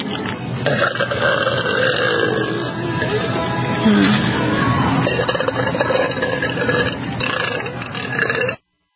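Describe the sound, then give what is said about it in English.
A man burps loudly in one long, drawn-out, rasping belch that rumbles on for several seconds before cutting off abruptly. “I bet you wish you can buy all the products that I just burped on, huh?”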